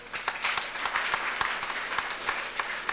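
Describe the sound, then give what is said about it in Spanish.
A church audience applauding, with many quick claps blending into a steady, fairly faint patter and no talk over it. “Vamos a darle un fuerte aplauso a nuestro Padre Eric.”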